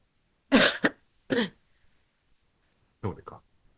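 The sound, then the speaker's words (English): Coughing from a person who covered their mouth: a few harsh, breathy bursts in separate spells, with a short double cough early on and another pair after a long pause. “I coughed away. I thought I don't. I covered my mouth.”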